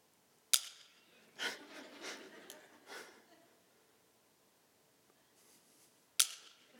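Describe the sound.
Two magnets snap together in two sharp, loud clicks several seconds apart, with softer breathy sounds and voices in between.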